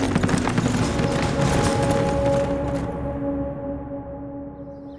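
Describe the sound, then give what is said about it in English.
Hooves of a horse as a rider rides away: a rapid, busy patter that grows steadily fainter and fades out, over a sustained tone. “then stood and remounted, and rode off once more toward Ascalon.”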